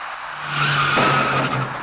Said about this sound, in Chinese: 那位电动自行车的骑车人跟这辆处于转弯中的出租车发生了相撞事故。